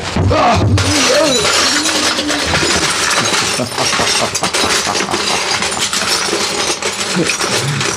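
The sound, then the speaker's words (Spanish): A wall of ice shatters into countless pieces in a loud, dense crash. Breaking and clinking fragments continue for several seconds, and a voice is briefly heard at the start. “El muro de hielo se rompe en mil pedazos ante los 90 kilos de poderosa musculatura de Calimán y la fuerza que le dio el impulso.”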